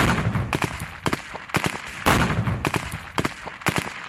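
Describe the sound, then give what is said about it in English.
Gunfire from armed training manoeuvres in mock villages at sites across Gaza: many sharp, loud shots crack out in irregular single reports and quick clusters, with no talking. “This is the sound of the manoeuvres carried out at sites across Gaza, where mock villages had been set up, complete even with a fake tank.”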